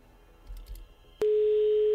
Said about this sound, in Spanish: Vamos a ver. El teléfono da tono.